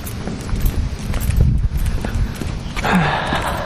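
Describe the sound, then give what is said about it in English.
Footsteps walking downhill on a leisure path, a steady series of muffled steps under constant background noise. “Very relaxing to walk on this leisure path.”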